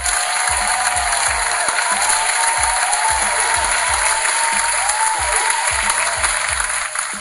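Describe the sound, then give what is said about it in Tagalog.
Steady audience applause rises as a continuous wash of clapping from a crowd and holds at an even, fairly loud level for about seven seconds. “So, palakpakan niyo ulit dyan.”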